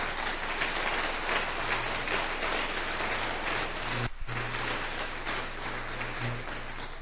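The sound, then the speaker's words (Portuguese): A church audience applauds in a steady, dense wash of clapping that holds level throughout, broken by a brief dip midway. “Dá uma salva de palmas aí”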